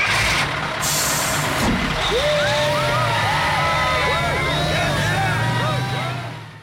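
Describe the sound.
A band bus pulls away, starting with a brief hiss of air brakes. A heavy engine follows with its pitch repeatedly climbing and dropping as it gathers speed, over a loud, continuous rumble.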